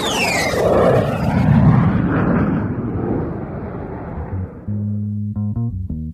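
An airplane takeoff roar as a loud, broad rushing rumble that sweeps and slowly fades over about four seconds. A few synthesized music notes then enter and close the sound.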